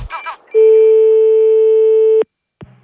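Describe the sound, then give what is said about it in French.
A censor beep sounds as a loud, steady, mid-pitched pure tone held for under two seconds, cut in right after a brief burst of voice, with another short voice sound after it. “Alors, un, je vous rassure, je pense que je vais mettre des bips”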